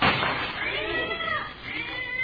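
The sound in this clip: A cat meows in a few drawn-out, wavering cries that bend up and down in pitch, set against a steady hiss of background noise.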